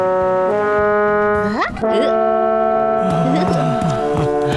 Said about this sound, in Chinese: 这汽笛响起来没完没了，我实在是顶不住了。